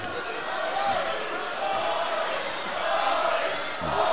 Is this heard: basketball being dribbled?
yes